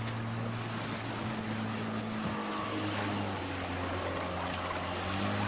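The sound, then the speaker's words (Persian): Steady low engine drone of an enemy motorboat carrying four soldiers along a narrow waterway: a continuous humming rumble with broad rushing wash noise that stays fairly constant in level throughout. “قایق موتوری دشمن به اونا نزدیک میشه. چهار تا سرباز توی اون هست.”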